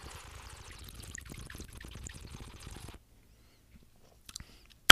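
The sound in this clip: Malbec red wine is poured in a faint, steady trickling stream for about three seconds. A few soft small clicks follow in the near silence.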